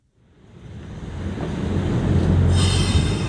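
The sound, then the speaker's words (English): A vintage railway train runs on a section of a bike trail, its low rumble building steadily in loudness over a couple of seconds. A high, bright wheel squeal joins near the end. “they discover why one section of Te Pōhiringa Tai is travelled by vintage railway.”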